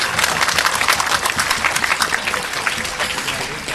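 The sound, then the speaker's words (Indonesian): An audience at a religious lecture applauds loudly, with dense, continuous clapping from many hands that holds steady for the whole stretch. “Jadi tepuk tangan sing banter, enggak usah malu-malu.”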